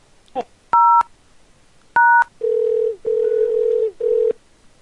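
Telephone keypad tones dialing a room extension: two short dual-pitched beeps, then three longer, lower steady tones, clear and alone.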